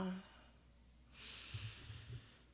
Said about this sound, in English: All right, let's breathe. Let's breathe before we get into it.